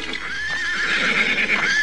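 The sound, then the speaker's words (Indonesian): Horses neigh as their riders rein them to a stop near a palace wall: a sustained, loud, high whinny runs through the whole stretch, wavering slightly in pitch without a break. “Paramudita dan Kalajantuk menghentikan kuda mereka bersamaan dengan orang-orang yang mereka kejar.”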